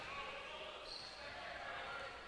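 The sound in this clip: Basketball dribbled on a court during a game in the third quarter, the bounces faint and hard to pick out beneath steady crowd and arena noise.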